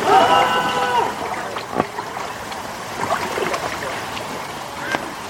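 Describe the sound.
Water gurgles and trickles as a boat is paddled, with a few small splashes over a steady wash. A voice is briefly audible at the start.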